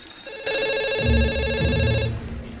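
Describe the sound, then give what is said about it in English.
A telephone ringing out over a speaker while an FBI team waits: one long, bright electronic ring burst, loud and steady, over a low, droning undertone. “Cross, MacArthur, and the rest of the FBI team stare apprehensively at a speaker as the phone rings out.”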